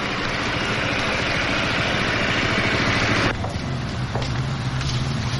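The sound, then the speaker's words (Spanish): A motorcycle engine rumbles steadily as the bike arrives and parks on the sidewalk across from a building. After about three seconds the sound thins and the bright rush drops away, leaving a softer low idle. “Más tarde llegan en la moto hasta la casa de Meli y aparcan en la acera de enfrente del edificio.”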